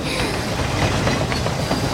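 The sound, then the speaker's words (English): Train crossing a bridge: a loud, continuous rumbling roar with rattling wheel noise that holds steady and dense for the whole stretch. “The train crosses a bridge, causing a breeze to blow off Jiro's hat.”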